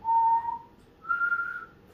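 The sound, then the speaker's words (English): A person whistles two clear notes alone: a lower tone held for about half a second, a brief gap, then a higher tone held slightly longer. “I can whistle two notes now, I believe.”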